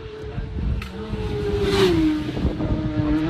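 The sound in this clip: Race cars pass at high speed on a long straight, braking from nearly 300 km/h toward a corner. A loud, continuous engine roar carries a steady tone that dips slightly lower midway through.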